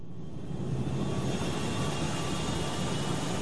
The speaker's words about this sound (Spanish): Durante el despegue, el avión no presenta ningún problema.